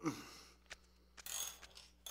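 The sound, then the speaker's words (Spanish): An adjustable wrench being handled gives off a few sharp metallic clicks and clanks, with a short rattling cluster in the middle. The bursts are brief and unevenly spaced, with no talking. “¡Esta! Ah, es una llave inglesa. ¿Una llave inglesa?”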